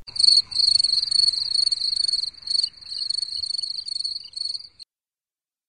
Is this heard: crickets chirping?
yes

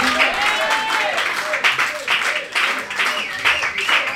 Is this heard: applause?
yes

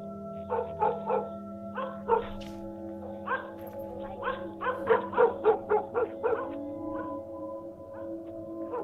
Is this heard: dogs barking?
yes

